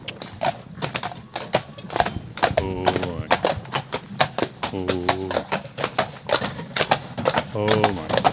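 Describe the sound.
Horse hooves clip-clop in a brisk, steady rhythm as the horse is ridden out, with many sharp hoof strikes throughout and a rider's voice speaking softly to the horse over the hoofbeats.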